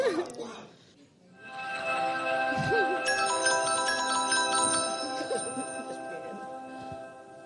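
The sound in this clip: A telephone rings for an incoming call: a ringtone of steady, sustained bright tones that holds for several seconds, with a voice heard over it.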